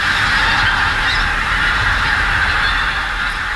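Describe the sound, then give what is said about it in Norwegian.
Large flocks of pink-footed geese calling in the village of Beitstad in Trøndelag: a loud, continuous mass of overlapping honks with no pauses. “dette er lyden av store flokker med kortnebbgås som nå oppholder seg i bygda Beitstad i Trøndelag”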